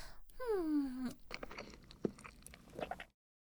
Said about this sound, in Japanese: おいしいにゃ。これならいくらでも食べられるにゃ。